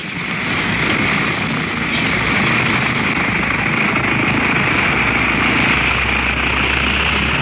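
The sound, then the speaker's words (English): An aircraft engine drones during takeoff, a loud, constant, buzzing roar that holds steady throughout with no pauses. “Everything is ready for the takeoff, please. Safety belts fastened and off. Then, here we go.”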